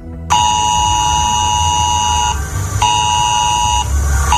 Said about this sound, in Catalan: És el so del nou sistema d'avisos d'emergència de Protecció Civil i avisarà la ciutadania d'una zona en concret on hi hagi una emergència greu.